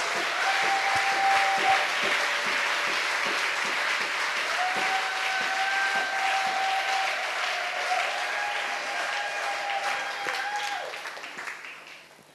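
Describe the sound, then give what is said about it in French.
Church audience applauding during a thanksgiving service, a full, steady burst of many hands clapping together that holds for several seconds before tapering off at the close. “Est-ce qu'on peut acclamer le Seigneur? Can we clap for the Lord?”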